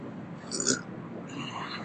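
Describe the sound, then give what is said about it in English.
A single short, low burp rises briefly out of quiet background hiss and then fades. “I just burped”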